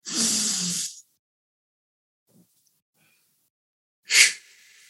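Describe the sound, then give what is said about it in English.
A loud breath during a guided breathing exercise of in through the nose and out through the mouth: a long, airy rush of breath is followed by near silence, then one short, sharp breath near the end. “let's just take an inhale with each other through the nose, out the mouth”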